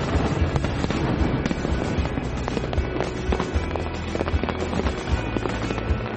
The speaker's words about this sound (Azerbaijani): Həftənin cümə və bazar günləri isə şəlalənin üzərində atəşfəşanlıq olur.